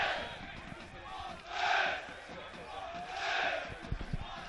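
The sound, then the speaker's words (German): DSC Arminia football fans chanting in the stadium: a faint crowd roar that swells twice into louder chanting. “Ihr hört im Hintergrund unsere Fans.”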